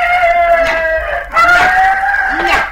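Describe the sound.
A chicken squawking and clucking as it is beaten with a basket, two loud, strained calls with harsh clucks mixed in, heard alone.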